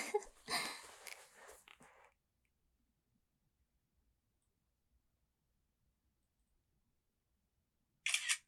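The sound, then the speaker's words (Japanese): A camera shutter fires while someone takes a photo: a longer cluster of sharp clicks, then a long silence and a single short click burst at the end. “よし、撮るぞー。”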